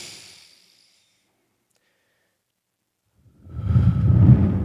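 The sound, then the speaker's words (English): A deep breath taken during a guided prayer by someone with a cold: a faint breathy hiss at first, then silence, then a loud, low, rushing breath that fills the last second and a half. “And just take a deep breath with me.”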